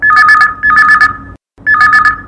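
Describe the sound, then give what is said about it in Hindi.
A telephone rings for an incoming call with a loud electronic two-tone warbling ring in three bursts, the last one coming after a brief silence. “आवाओ देखथन कि पहली phone call कौन बहनी के आए हे तेन ला।”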